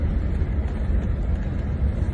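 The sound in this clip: Steady low rumble of a car being driven, a continuous muffled hum with no distinct events.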